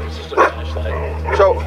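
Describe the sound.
A young service dog in training barks or yips about twice over people talking, the short bursts rising above a steady low hum.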